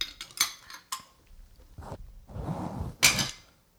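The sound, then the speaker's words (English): A lid tossed down upside down clatters in a few sharp clanks, with rattling and scraping between the louder hits. “No, I just threw the lid over there kind of indiscriminately upside down.”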